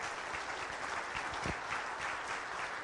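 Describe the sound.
Audience applause greets a speaker, a dense, even wash of many clapping hands that stays steady and unbroken throughout.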